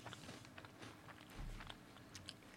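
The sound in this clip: Close biting and chewing of crunchy food, a series of crisp crackling crunches in an uneven rhythm, fairly quiet and with no talking.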